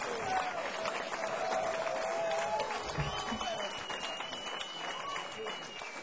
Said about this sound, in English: clap for poetry.